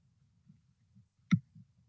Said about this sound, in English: see if I can get my pen operating here by the grace of God today. See if I can give it a click and get it going.